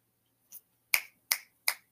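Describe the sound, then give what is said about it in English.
Fingers snapping four times, alone with no talk: a soft first snap, then three sharp, bright clicks at an even pace. “like I gotta just snap my fingers because you finna like just flow some hot shit.”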